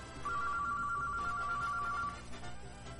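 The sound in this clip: A telephone rings at a radio station with a rapid, warbling electronic trill that runs steadily for about two seconds and then stops, over a constant background.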